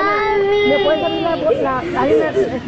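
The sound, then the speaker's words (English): Children crying after being separated from their parents at an immigration facility: high, wavering wails and sobs overlap in a steady, fairly loud stream, with other voices mixed in. “with the sound of children crying after being separated from their parents ringing in their ears”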